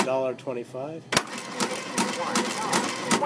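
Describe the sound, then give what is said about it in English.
Talking cash register at a courthouse snack shop: a brief synthesized voice speaks, then a run of sharp mechanical clicks and clacks from the machine follows. “the state provides the space and specialized machinery, like a talking cash register that tells him the total”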